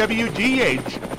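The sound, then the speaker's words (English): A news helicopter flying over the city of Marion: a fast, throbbing rotor chop heard under a man's talking. “looking down on the beautiful city of Marion from the WWGH News Chopper”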